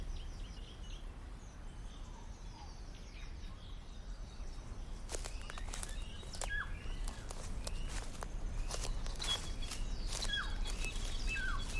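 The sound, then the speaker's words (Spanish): Footsteps crunch over dry grass and small leaves outdoors, many soft irregular rustling steps starting midway and continuing, with a few thin bird chirps and faint insect hum in the background. “Escuchamos el sonidito de nuestros pies, pisando los acatitos y hojitas que están ahí.”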